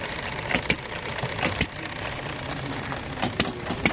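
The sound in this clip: An old engine running among other old motors, a dense, steady mechanical rumble broken by sharp, irregular clicks and knocks throughout.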